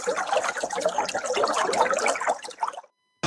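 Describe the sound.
Tap water runs in a steady, splashing rush that stops abruptly, followed by a moment of silence and then a sudden burst of sound right at the end.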